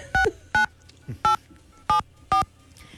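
Telephone keypad dialing tones: five short, clear electronic dual-tone beeps at an uneven pace, with a faint low thump between the second and third.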